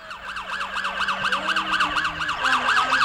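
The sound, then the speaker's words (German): A police car siren wails in rapid, repeated up-and-down sweeps that stay steady and loud throughout, with no voices. “Hörst du das? Ist das die Polizei? Schau mal da, das ist das Polizeiauto.”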